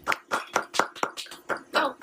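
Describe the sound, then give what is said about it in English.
Clapping from a small group, a run of sharp, separate hand claps at a fairly steady tempo, moderately quiet, with brief gaps between each hit. “Yep. Clap to that.”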